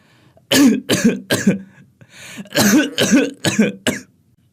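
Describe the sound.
An old woman coughs heavily in a kitchen: seven harsh, chesty coughs in two clusters, separated by a short breathy pause.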